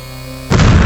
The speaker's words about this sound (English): Igor Jones' special collection of C4 has detonated, thus propelling the Grey Guardian greatly across the warehouse